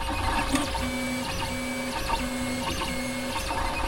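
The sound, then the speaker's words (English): A 3D printer at work, its stepper motors whining in short tones that repeat in a regular pattern over a steady mechanical hum and light rattling, with no voices. “That's the sound of a 3D printer, and they're getting absurdly cheap these days, with some models costing less than $200.”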